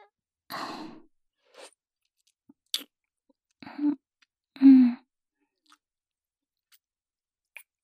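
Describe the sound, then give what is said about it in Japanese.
Someone eats an aphrodisiac for the first time, with sparse, soft chewing and mouth sounds in a few separate bursts, some breathy like sighs, between stretches of near silence. “人生初めての媚薬、どんな味なのか食べてみます。いただきます。”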